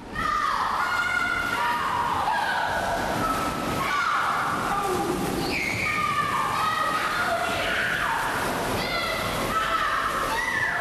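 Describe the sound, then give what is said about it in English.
Indoor swimming pool ambience: continuous splashing and sloshing water mixed with many overlapping shouts and calls from people, busy and steady throughout. “For example, one moment we can be at the side of an indoor swimming pool.”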